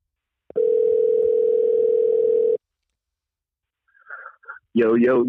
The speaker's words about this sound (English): Let's give him a call right now.